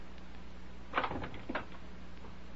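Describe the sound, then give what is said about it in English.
A window being opened, heard as a brief sliding rattle with a couple of soft clunks close together, alone over a steady background hiss. “Go over to the window. Open it up.”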